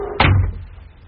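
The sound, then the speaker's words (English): A door being pushed shut with one solid thud, followed by a short, fading resonance. “Close that door. All right, never mind, I will.”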